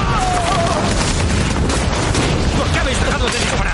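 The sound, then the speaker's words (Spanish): Gunfire and bomb explosions roar as soldiers run for snowy trenches in a 2008 war drama. The din is loud and continuous, and a voice is briefly heard over it. “Varios soldados corren hacia unas trincheras en la nieve para refugiarse de los disparos y las bombas.”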